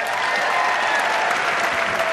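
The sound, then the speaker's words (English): Thunderous applause and cheering from a theater audience on Broadway during a live quiz game, a dense, steady wash of clapping that holds at full strength throughout. “Broadway is cheering right now.”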